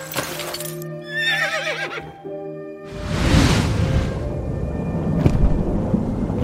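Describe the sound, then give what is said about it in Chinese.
A spirited horse, one of two offered to a brave child for riding, neighs in a wavering whinny over steady sustained tones. A long, loud rushing noise follows. “勇敢的孩子，这两匹马，你选一匹骑上去吧。 就这匹吧，可真是精神的好马儿啊！”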